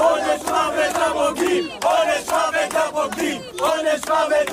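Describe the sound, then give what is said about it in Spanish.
A crowd of harassers chants death threats in unison outside a family home, loud rhythmic shouted phrases repeating in bursts with brief pauses between them. “Un grupo de acosadores rodeaba anoche el domicilio familiar de la codirectora de Naza, de Raquel Sor, y coreaba, como escuchábamos, pena de muerte a los traidores.”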